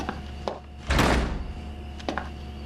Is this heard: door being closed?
yes